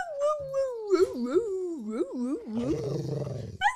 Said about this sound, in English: that's more of a growl. Be nicer about it. Come here. You heard it. You get the gist. But that's Bowie, our new dog.